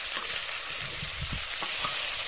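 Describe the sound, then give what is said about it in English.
Vegetables seasoned with salt, pepper and a pinch of cayenne sizzle steadily in a pan as they are stirred. The constant frying hiss is broken by a few soft scraping and knocking stir sounds, with no one speaking. “A little salt and some pepper. Get that in there. Stir that around.”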